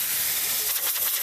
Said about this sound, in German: passt mal auf, ich lasse mal hier hinten die Luft absausen.